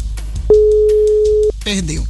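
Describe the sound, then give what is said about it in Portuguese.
Telephone ringing on an unanswered call: one steady, unbroken ring tone lasts about a second, then a voice speaks. “A gente vai pra quinta e ninguém atendeu. Ó, vamos pra quinta agora. Quinta chamada.”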